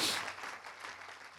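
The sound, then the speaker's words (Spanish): Applause from a church audience praising the Lord during a service, a brief, dense wash of clapping that starts loud and eases slightly over about a second and a half. “Dele un aplauso de alabanza al Señor.”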